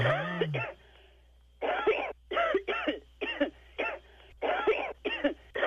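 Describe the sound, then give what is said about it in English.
Coughing on a voicemail recording: a long series of harsh, throaty coughs in short bursts with brief gaps, loud over a faint steady hum. “There was no complaint. Just a lot of coughing in there.”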